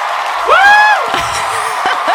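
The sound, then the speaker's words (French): A crowd cheering sound effect: a single high whoop rises and holds over a steady bed of crowd noise, followed by scattered shorter calls during about two seconds. “Pourquoi il y a une foule qui nous entoure ?”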